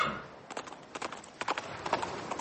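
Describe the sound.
A horse's hooves clip-clop as it walks away from the seashore, many quick, sharp knocks in an uneven rhythm, fairly faint and alone.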